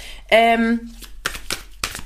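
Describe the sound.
Soul Cards oracle cards are shuffled, with some cards jumping out. A brief spoken exclamation comes first, then a few quick, papery riffling bursts.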